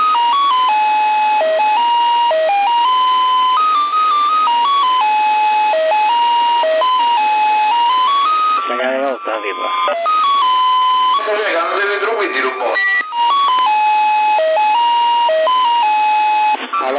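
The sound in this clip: An electronic buzzer sounds a continuous run of stepped, steady beeping tones that shift up and down like a simple melody. Noisier bursts briefly cut across it midway.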